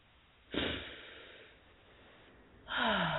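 A deep breath drawn in during a guided calming meditation, followed by a pause and then a long, breathy exhale. Both breaths are soft and airy, and no one speaks.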